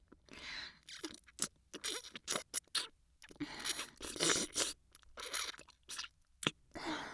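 Someone chews sweet, crunchy food, producing a series of quiet, irregular crunches and crackles, separated by short pauses.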